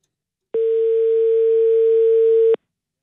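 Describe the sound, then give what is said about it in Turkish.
Ringback tone of an outgoing telephone call: a single steady, even-pitched tone lasting about two seconds, heard alone without any talk. “İki daha çaldırır kapatırız. Bir. Bir kere daha çaldırırım kapatırım.”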